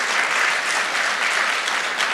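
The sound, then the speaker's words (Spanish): Applause from a church audience for the Excel youth ministry: steady, dense clapping that stays loud and even throughout, with no voices over it. “Se le damos un aplauso al Ministerio de Excel”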